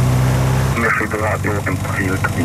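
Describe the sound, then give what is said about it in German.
A propeller aircraft engine starts up. A steady low hum gives way abruptly to a louder, broader droning roar, with talking over the engine noise. “Und der Propeller fängt an, sich zu drehen.”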